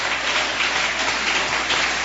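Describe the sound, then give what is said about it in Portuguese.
A church audience claps hands in praise, a dense, continuous patter of applause held at a steady level throughout. “Deus ocupa as suas mãos e exalta Cristo com palmas.”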